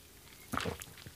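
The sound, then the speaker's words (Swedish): A quick sip of water, heard as a soft wet gulp and then a few faint mouth sounds. Quiet, with no talk. “jag ska ta mig en klunk vatten”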